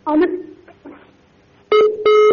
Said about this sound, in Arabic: لعل الخط انقطع.